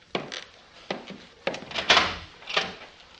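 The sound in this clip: A wooden door gives five dull thumps at an uneven pace, spread over a few seconds. Each is short and solid, with quiet gaps between them.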